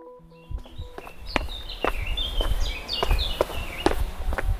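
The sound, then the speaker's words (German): Steady footsteps crunch along a forest walking path on the Kapuzinerberg in Salzburg, an even walking rhythm of soft thuds, while birds chirp and trill throughout. “Am Rande der Innenstadt von Salzburg liegt der Kapuzinerberg. Spazierwege führen durch einen Wald hindurch.”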